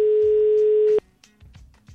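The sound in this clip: A telephone ringback tone sounds while a call is placed to a listener: one loud, steady, mid-pitched beep that holds for about a second and then cuts off abruptly, leaving faint low rumbles and soft muffled thumps.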